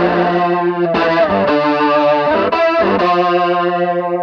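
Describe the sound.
Electric guitar runs through a DOD effects pedal, a loud, distorted, sustained tone that holds each chord and changes several times with brief breaks between, played alone.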